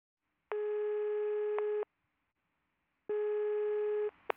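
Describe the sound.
A telephone rings during an incoming call: two long, steady electronic rings, each lasting over a second, separated by a silent pause. A brief click comes after the second ring.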